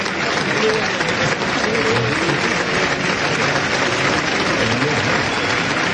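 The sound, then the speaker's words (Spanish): A bullring crowd gives an ovation at a bullfighting festival, a dense, loud wash of continuous clapping that holds steady throughout without a break. “Saldrá a recibir ahí al tercio la ovación.”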